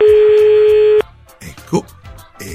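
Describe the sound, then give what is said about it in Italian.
Telephone ringing tone on a call to the Rome mayor's office: one steady, loud, buzzy tone held for about a second, then cut off as people start talking. “E allora noi andiamo a chiamare, vabbè, intanto si comincia, pezzo grosso, il sindaco Gualtieri, o meglio, il suo gabinetto”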